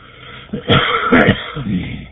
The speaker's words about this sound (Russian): Я прошу прощения. Закашлялся.